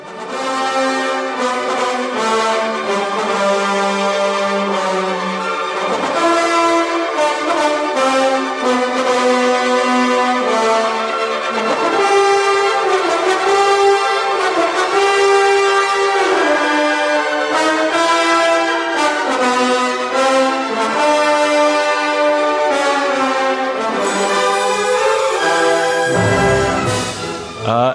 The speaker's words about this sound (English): Just a little bit of that sound is Prelude to Act 3 from Lohengrin.